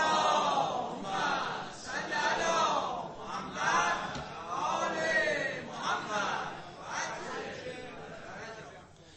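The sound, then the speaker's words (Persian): An audience recites a loud salawat in unison, the massed voices rising and falling in several rhythmic swells of chant. “یه صلوات بلند دیگه به همین نیت خط بفرماید.”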